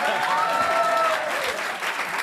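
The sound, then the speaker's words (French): Studio audience applause on a French celebrity quiz show after a mystery-guest guess: a dense, continuous wash of clapping that holds steady and loud from start to finish. “c'est pour avoir des applaudissements du Nord.”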